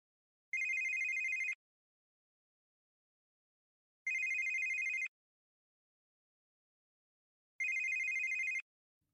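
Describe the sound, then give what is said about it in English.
A telephone rings three times, each ring a bright electronic burst about a second long, evenly spaced with silence between and fairly faint, with no voices. “picked his phone on the 5th ring.”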